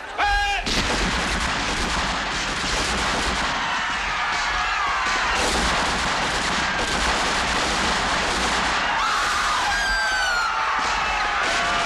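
Soldiers ordered to fire on a banned gathering let loose a sustained volley of rifle fire, a loud, dense, unbroken crackle of overlapping shots that fills the whole stretch without a pause.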